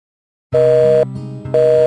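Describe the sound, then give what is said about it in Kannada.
A telephone busy signal sounds as two loud, steady tone bursts separated by a short gap, with no one speaking over it. “The number you've dialed is currently busy. Kindly try after some time.”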